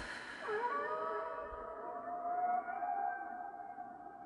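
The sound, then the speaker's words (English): Whale song: a long, moaning call that sweeps downward and then holds a steady, slightly wavering tone with rich overtones, fairly faint and heard alone. “or the whales that we're connecting with”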